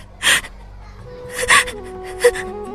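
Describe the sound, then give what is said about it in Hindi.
A girl crying in the principal's room, with three short, breathy sobs spaced apart. Thin, wavering whimpering tones drift between and after them at a moderate level. “अगले दिन सुबह जब मीना मिठू के साथ school पहुंची, तो उसे principal जी के कमरे से किसी के रोने की आवाज सुनाई दी।”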